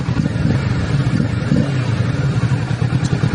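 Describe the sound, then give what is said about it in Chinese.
A twin-cylinder motorcycle engine runs during an early-morning test ride, giving a steady, throbbing low rumble with a slightly uneven pulse and a little mechanical clatter, loud and without talk. “双缸的声音”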